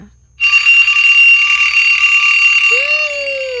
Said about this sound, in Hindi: alarm बज रहा, alarm बज रहा, लो जी लो अलार्म बज गया सीगा